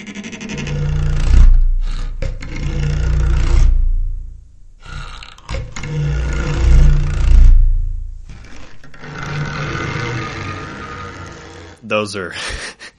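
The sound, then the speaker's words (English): A dragon creature effect made from a gritty, intense bowed cactus needle layered with a lion roar: several long, rasping growls that swell and fade, then a few short harsh bursts at the end. “A really gritty, intense sound of bowing this cactus needle, and you combine that with a recording of a lion roar, and that's how you would make a dragon sound.”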